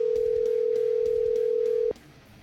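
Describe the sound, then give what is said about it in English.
Telephone dial tone as a call is placed: a steady, single-pitched tone holds for about two seconds and then cuts off, leaving faint background noise. “So let's give him a call, see what he's up to.”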